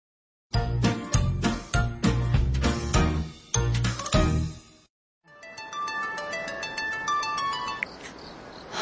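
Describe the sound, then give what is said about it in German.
A phone ringtone for an incoming call in a drama scene: a loud, rhythmic electronic melody with beat-like pulses, a brief break, then a steady tinkling tune that keeps going, with no voices. “Park Jin-seok ruft die beste Freundin und Kollegin seiner Frau, Sung Mi-jin, an”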